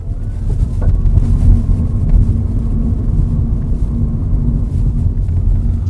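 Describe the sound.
Steady road and wind rumble of an electric car accelerating at full throttle on the hills of San Francisco, a dense low roar that holds level throughout with no engine note standing out.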